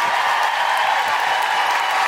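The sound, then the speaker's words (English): An audience applauds at a live centenary event, producing thick, continuous clapping at a fairly loud and even level from start to end. “So please give a huge round of applause”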